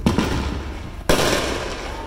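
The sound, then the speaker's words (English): Illegal fireworks going off in residential backyards in Oceanside: a few sharp booms at roughly one-second intervals, each followed by a sustained hissing, crackling rush. “This is the scene that the city of Oceanside is hoping to stop. Illegal fireworks lighting up in people's backyards and causing a nuisance.”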